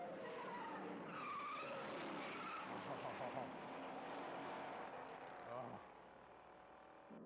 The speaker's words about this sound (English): Oh, heck yeah, you gotta squeal the tires. That's important.